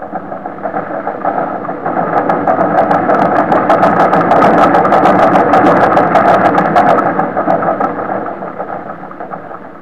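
A pump supplying air to a diver's helmet runs with a loud, steady mechanical roar and rushing noise that swells slightly through the middle and eases toward the end, with no voices over it.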